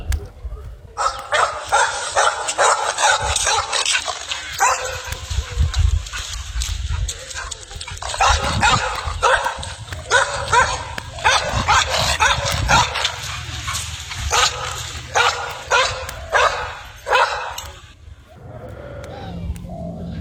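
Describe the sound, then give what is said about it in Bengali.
Village dogs bark loudly and repeatedly, with many sharp, overlapping barks in dense bursts over a low rumbling background, easing into a quieter stretch near the end. “প্রথম যে গ্রামটিতে ও এলো সেখানে আসা মাত্রই কুকুরগুলো সে কি চিৎকার”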